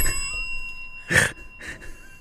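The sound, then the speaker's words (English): A bell rings with a sustained, high metallic tone that hangs evenly through the short clip, with a couple of brief noisy bursts over it. “Ring that bell.”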